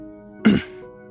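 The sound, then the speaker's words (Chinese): A man coughs once: a single short, throaty burst that clears the throat, loud against an otherwise quiet background. “寒夜咳嗽一声，微微有些不自在，耳尖罕见的有些红。”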